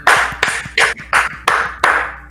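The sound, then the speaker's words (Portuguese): Hand clapping comes in six loud, separate bursts at an even, quick pace. Each burst is sharp and then rings briefly before the next, with no talking over it. “Palmas. A gente tá... Palmas.”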